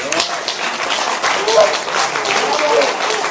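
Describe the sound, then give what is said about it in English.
Audience applause after a film screening: a steady patter of clapping, moderately loud, with voices heard over and through it. “So you missed the applause for the after the film, but we just had that for you now.”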